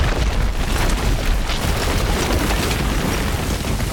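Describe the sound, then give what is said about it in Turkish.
A metres-long retaining wall collapses in Amasya after relentless rain, with chunks striking an apartment balcony. The result is a loud, continuous, deep roaring rumble with crackling debris noise that stays heavy and unbroken throughout. “Metrelerce uzunlukta olan istinat duvarı deprem etkisi yarattı. Büyük bir gümbürtü koptu.”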